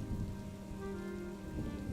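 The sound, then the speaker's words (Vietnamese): Heavy rain falls in a steady, dense hiss that holds at an even loudness for the whole clip, with no gaps or single drops standing out. “Mưa càng lúc càng nặng hạt”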